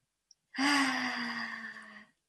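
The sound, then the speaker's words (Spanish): A single long, deep exhale during a guided breathing exercise, voiced and sigh-like with a steady low tone. It swells quickly, then fades slowly over about a second and a half, alone after a tiny click. “Suelto lo que esté pensando ahora mismo y nos vamos a dedicar únicamente a respirar.”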